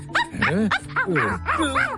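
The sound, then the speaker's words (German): Rapid series of high, yappy dog barks and yips, loud and closely spaced with a slightly wailing, tonal quality, and no talk over them. “Ja, ist ja gut. Sitz, mach Sitz. Braver Hund.”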